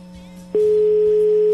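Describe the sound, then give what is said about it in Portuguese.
A telephone ringback tone sounds on an outgoing call: one loud, steady, pure mid-pitched tone lasting about a second, set against a faint constant hum. “Vamos ver se a gente consegue. Ó, oh, tá chamando, hein?”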